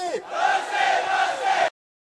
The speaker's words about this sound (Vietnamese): Đó là âm thanh của đám đông giận dữ khi kêu gọi bằng tiếng Mã Lai là hãy trong sạch, hãy trong sạch.